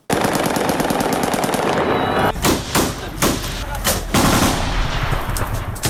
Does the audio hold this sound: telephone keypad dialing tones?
no

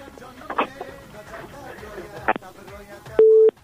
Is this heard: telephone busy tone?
yes

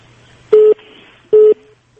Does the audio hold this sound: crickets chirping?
no

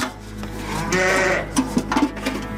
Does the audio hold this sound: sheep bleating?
yes

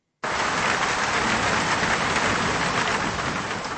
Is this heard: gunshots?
no

